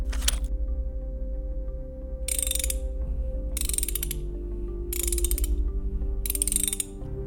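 A wrench ratchets in five distinct bursts of rapid, crisp clicking, evenly spaced over a steady low hum, with no talking.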